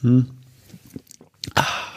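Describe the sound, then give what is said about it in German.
Sipping tap water from a glass makes a brief hum of voice, then small wet mouth clicks and gulps, followed by a person starting to talk. “jetzt muss ich mal einen Schluck trinken, merke ich gerade.”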